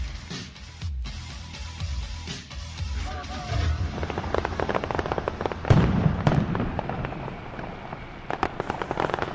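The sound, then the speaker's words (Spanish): Fireworks going off at a launch event: many sharp bursts and rapid crackling pops, quiet at first, then building into a dense, loud, irregular barrage. “Los fuegos del Amazon Ruggeri, los mejores fuegos artificiales del mundo”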